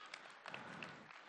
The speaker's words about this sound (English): Oh, give him a round of applause.